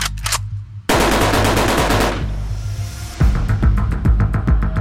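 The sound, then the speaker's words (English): Machine gun fire in a street shootout: loud, rapid bursts of automatic gunfire, dense strings of sharp cracks over a heavy low throb, with a slightly lighter stretch before a renewed intense burst. “Attention all units, for information, I've shots fired with machine guns at 120 Street,”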